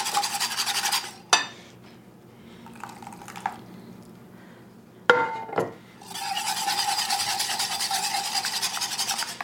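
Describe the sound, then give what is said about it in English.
A whisk scrapes and rasps in a bowl as cream is beaten into eggs to temper them for a potato dish. Quick, steady scratchy strokes come in two long stretches, with a quieter gap holding a few knocks between them. “I'm going to add a little more now. Whisk, whisk, whisk.”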